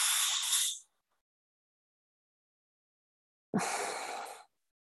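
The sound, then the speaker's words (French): Breaths drawn in through the mouth during a breathing exercise: two soft, hissing breaths, each about a second long, separated by a few seconds of silence. “On inspire avec la bouche, on rond.”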